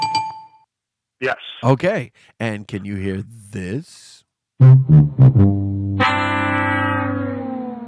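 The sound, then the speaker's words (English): Quiz-game answer sound effects follow brief talk: a low, harsh, distorted buzzer, then a bright ringing chime that sustains and slowly fades. “that is the sound of the good answer and the bad answer, or the right answer and the wrong answer.”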